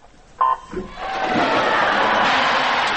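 Spectators at a Paralympic swimming pool give an ovation as a US athlete in a wheelchair approaches the pool. A short buzzing tone sounds first, then a loud, sustained roar of crowd noise builds and holds.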